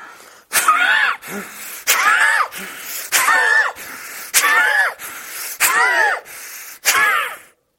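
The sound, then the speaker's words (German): Forceful nasal breathing of a Bhastrika breathing exercise: loud, hissing inhales and exhales pushed through the nose in a steady, regular rhythm. Stronger and softer breaths alternate, with no talk. “Aber wenn die Nasendurchgänge frei genug sind, kannst du auch sehr feste dort einatmen.”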